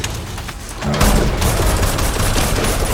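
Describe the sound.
Dense gunfire aimed at a chimpanzee's leg: a loud, continuous rattle of shots with no clear gaps between them, growing stronger after the first second and holding steady to the end.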